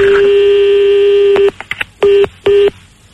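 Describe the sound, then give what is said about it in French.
Telephone line going dead after a call is cut off: a loud, steady tone holds, then a few clicks, followed by two short, even busy-signal beeps and silence. “Allô? Allô? Ah mais il a raccroché, non? Ça a coupé.”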